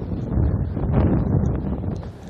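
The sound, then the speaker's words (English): Strong, sharp wind blowing during a walk and buffeting the microphone: a steady, low, rumbling roar that lasts the whole clip and rises and falls slightly in strength. “Oh yes, and here comes the wind again.”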